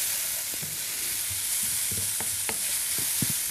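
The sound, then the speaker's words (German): Mushrooms and onions frying in a pan are stirred: many short scraping strokes sound over a steady soft sizzle, with no talking. “Ich schau mal wieder zu unseren Champignons und Zwiebeln und rühre die mal wieder um.”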